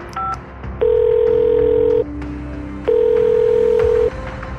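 A home telephone number is dialed with a few quick beeping tones, followed by two long, steady ringback tones separated by a short pause, sounding as the call rings unanswered.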